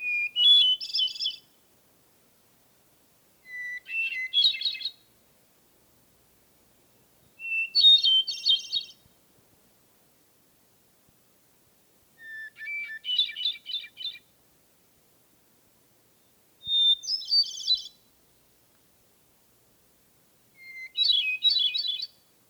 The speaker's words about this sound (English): And a single hermit thrush is content to spend the summer and charm us with his evening song.